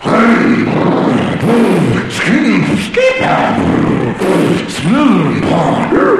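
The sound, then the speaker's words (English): A voice imitates a go-kart engine warming up, making loud, continuous revving bursts whose pitch repeatedly swoops up and down, with rough, growling texture between them. “I'm warming up my go-kart.”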